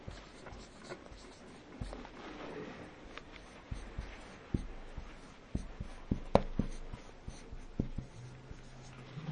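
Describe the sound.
A pen writes a word down on paper, producing soft scratching strokes with many small, sharp ticks and scrapes in an irregular rhythm, faint and on its own.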